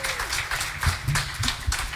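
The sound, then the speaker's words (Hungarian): Audience applause at a live music performance, a dense patter of many hands clapping with irregular louder peaks that continues throughout. “most lehet tapsolni, köszönjük szépen!”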